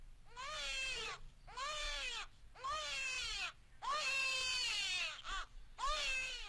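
A newborn baby cries in a hospital maternity ward: a few long, strained, high wails with short breaths between them, fairly faint and with no other voices.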